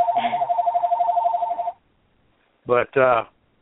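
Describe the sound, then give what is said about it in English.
Telephone ringing in a busy office: a steady, bright ringing tone sounds for under two seconds, then stops. After a short gap come two brief, sharp ring bursts. “too many phones going here”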